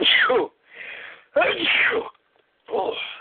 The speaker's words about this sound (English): I was just about to say before I sneezed.